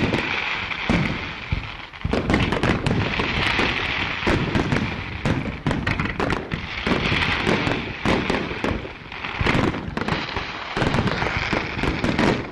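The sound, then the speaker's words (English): Fireworks aerial salutes launched from mortars in a final volley, a dense, loud barrage of many sharp booming bursts overlapping one another with crackling in between and barely any pause. “the mortar operators launched a final deafening volley of aerial salutes.”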